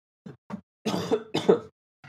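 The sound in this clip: Coughing from something caught in the throat: two short, light coughs, then two longer, harsh, rough bursts close together, with a faint hint of another at the very end.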